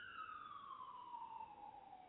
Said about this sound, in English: What in God's name is going on with all these sirens? I hope there's no fire nearby.